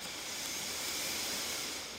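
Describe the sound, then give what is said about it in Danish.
A deep inhalation through the nose during a stretching exercise, heard as a soft, airy hiss that lasts about two seconds, swelling slightly and then easing off at the end. “Tag en dyb indånding gennem næsen.”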